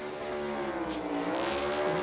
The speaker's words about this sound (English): He just shifted to second or third right there. Did you hear that? That's what blew him up.